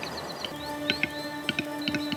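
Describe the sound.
A capercaillie calls in a Scots pine forest, giving a string of short, sharp pops and clicks, mostly in pairs. They sound over a faint, steady tonal background.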